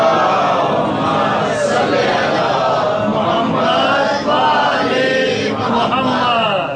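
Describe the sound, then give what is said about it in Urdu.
An audience at a religious sermon recites salawat in unison. Many voices blend into a continuous, steady chant of drawn-out phrases. “صلوات پڑھ دیں”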